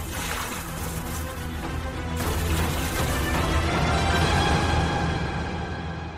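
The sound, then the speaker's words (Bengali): Water poured from a bucket onto burning straw makes a steady, rushing, hissing splash that lasts several seconds, growing slightly louder midway, with no voices. “Watson, এই জ্বলন্ত খড়ের উপর জল ঢেলে দাও এক্ষুনি। আমি একটা বালতি থেকে জল নিয়ে জ্বলতে থাকা খড়ের টুকরোটা নিভিয়ে দিলাম।”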